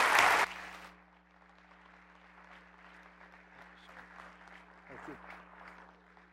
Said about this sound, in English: I want you to put your hands together and welcome with me Alan Huth as he comes to share God's Word with us today.